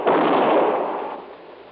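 A single gunshot in a warehouse: a sharp, loud blast whose broad, rumbling tail carries on and fades away over about a second and a half.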